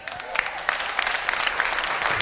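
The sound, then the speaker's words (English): An audience clapping: dense, continuous applause that holds at an even, fairly strong level throughout, with many overlapping hand claps and a faint murmur of voices underneath. “Where they didn't clap like you're clapping.”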